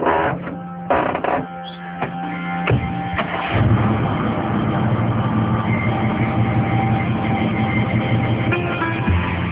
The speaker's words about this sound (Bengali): গাড়ি চলছে পিচ খেলা পথে